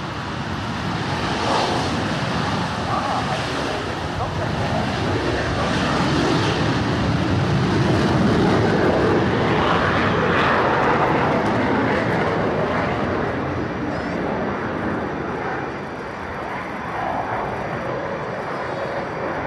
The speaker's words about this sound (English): So I'll let you have a little listen to the French display team at Air Day 2015. That was a Rafale and two Super Entendards.